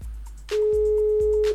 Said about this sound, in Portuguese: Vamos ver. Tocou, tocou, não atendeu, desisti.